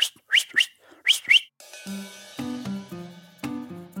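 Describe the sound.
A shepherd's run whistle for directing herding dogs, a few sharp, high, sweeping whistled notes in quick bursts at the start, followed by other tonal sound.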